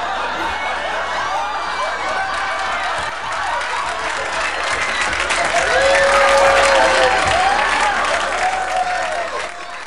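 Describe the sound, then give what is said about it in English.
A studio audience erupts in loud, sustained laughter and applause after a man unexpectedly smacks someone on the rear. The roar holds steady and swells louder midway, with voices mixed into the noise. “he smacks somebody on the ass. And he wasn't supposed to, and everybody just breaks up, and you hear the audience go crazy.”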